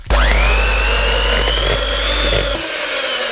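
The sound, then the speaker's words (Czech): An electric mixer whips butter for a chocolate buttercream filling, its motor a loud, steady whir that climbs slightly in pitch at the start and then cuts off shortly before the end. “Máslo musíme vyšlehat.”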